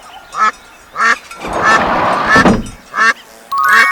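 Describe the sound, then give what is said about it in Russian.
Duck quacking loudly and alone: several short nasal quacks, with a longer raspy burst of calling in the middle. “Утка.”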